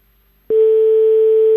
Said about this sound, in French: ça sonne